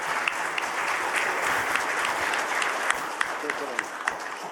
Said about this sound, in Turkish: İki ülke heyetleri de ayakta alkışladı.